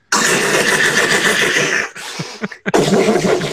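A man imitates a horse's whinny with his mouth, a long, raspy, breathy vocal cry. It breaks into a few short, choppy bursts near the end, then resumes strongly.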